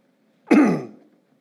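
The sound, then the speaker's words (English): Throat clearing by a preacher during a sermon: one short, rough, guttural rasp that starts sharply and trails off quickly, heard alone without speech. “Excuse me, a little throat thing there tonight.”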